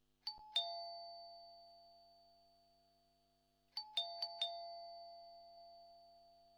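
A doorbell at a house gate sounds a single two-note ding-dong, then after a pause rings again with several quick chimes. Each bright note rings on and slowly fades, fairly faint overall.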